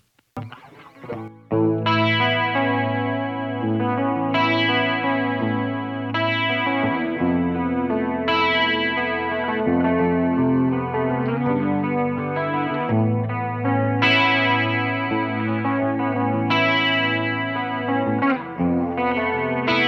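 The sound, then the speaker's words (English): Electric guitar through a JAM chorus pedal, its switches adjusted toward a vintage CE-1 style tone: after a few brief opening notes, sustained chords ring on continuously with a shimmering, wavering chorus texture and no talking. “There's a couple switches. Let me mess with them and see if I can get a sound that's a little bit more reminiscent of the CE1.”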